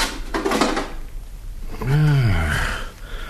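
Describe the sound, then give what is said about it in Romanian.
Peephole hatch on a gate being opened, giving a single creaking, squealing scrape with a bending pitch after a stretch of softer rattling noise. “O clipă, numai să deschid vizeta porții.”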